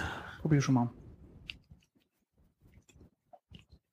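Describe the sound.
Soft chewing and small mouth clicks come from someone tasting butter. A brief stretch of talk comes first, then sparse, faint crunchy smacks follow in an uneven rhythm.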